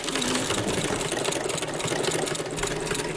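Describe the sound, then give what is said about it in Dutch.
Old-fashioned hand-cranked sewing machine of a 1950s type, running with a continuous, dense whirring clatter at a steady level throughout. “Nou, dit is zo'n hele ouderwetse naaimachine. Zo'n eentje die je bij ons in de jaren 50 nog wel zag. Handgedraaid.”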